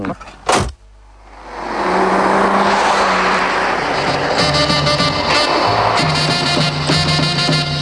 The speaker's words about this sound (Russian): Поехали на длинном черном Мерседесе, нанятом, видимо, часа на два.